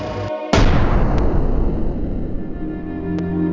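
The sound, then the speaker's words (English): A single loud gunshot cracks out abruptly after a short pause, followed by a long, gradually decaying low rumble. “That's a gun.”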